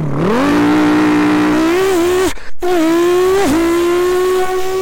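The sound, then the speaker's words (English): A twin-turbo Audi R8 engine revs loudly, its pitch climbing steadily, then cutting out briefly and picking up again, dipping once more before settling into a high, sustained roar. “Twin Turbo R8!”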